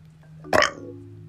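A single short burp, loud and rough, bursts out abruptly over a faint low hum and dies away within a fraction of a second.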